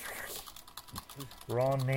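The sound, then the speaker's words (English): Computer keyboards clattering in the background, a few faint, brief key clicks, followed by a voice entering near the end. “We're going to hear clattering keyboards in the background.”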